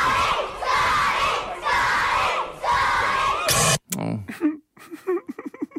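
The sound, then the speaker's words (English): A large crowd of school students cheers and chants for snowboarder Scotty James on his return to his old school, loud rhythmic shouting in four sustained surges that cuts off with a sharp burst before voices talk. “And Scotty went back yesterday and to our school, the school that I went to too, and got quite a reception.”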